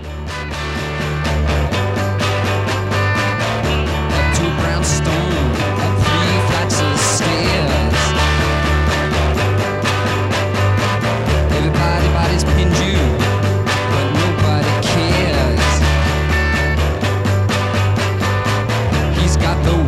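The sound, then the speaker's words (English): Droning, clanky rock song that repeats the same pattern without any change of melody between verse and chorus; a steady, loud band sound over a repetitive bass line, unchanging from start to finish. “no change of melody between the verses and the chorus, and it just kind of drones on and on. It's clunky, it's clanky,”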